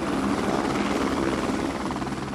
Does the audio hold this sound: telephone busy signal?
no